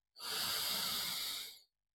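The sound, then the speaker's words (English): One deep, slow inhale through the nose during a guided breathing exercise. It is a soft, airy hiss lasting about a second and a half that swells and then fades, heard alone. “So take a nice deep inhale through your nose”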